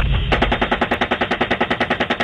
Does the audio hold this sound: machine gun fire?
yes